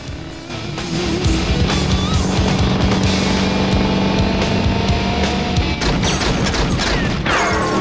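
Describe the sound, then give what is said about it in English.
A car speeding down a nighttime street while a man fires at it: a continuous loud engine roar with dense crackling bursts of gunfire layered over it throughout. “His car speeds down the nighttime street, straight towards Jack, who starts firing at it.”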